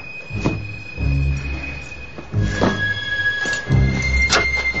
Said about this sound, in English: Miles and Eddie kick open the cover, then slide out of the vent shaft.